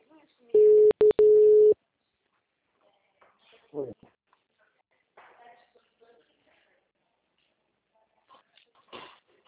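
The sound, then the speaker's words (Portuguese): A telephone tone sounds as a call is dialled back, a steady pitched tone lasting about a second and broken by a few brief clicks, then faint scattered noises. “vou ligar para ele de novo.”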